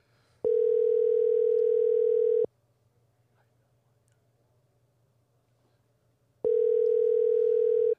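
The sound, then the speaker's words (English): Telephone tones sound while a phone call is being placed: two steady, even, mid-pitched buzzing bursts, each about two seconds long, with a quiet pause of roughly four seconds between them. “Siri doesn't want to talk. No, Siri can't dial and talk.”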